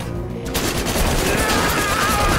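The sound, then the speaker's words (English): A futuristic sci-fi gun firing in a video game: a loud, dense, unbroken barrage of rapid blasts, with a thin high whine through the later part. “I totally have a futuristic sci-fi gun! Where did he go? Disintegrated, huh? I have to thank Cable for this awesome gun.”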